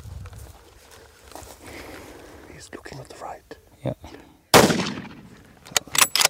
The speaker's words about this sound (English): And the third shot doesn't kill it.